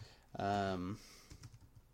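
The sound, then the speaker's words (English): Typing on a computer keyboard while checking a basketball game log: a few soft, irregular clicks, faint and quick, following a brief voiced hum. “And I just typed Jabari instead of Parker when I'm looking at the game log.”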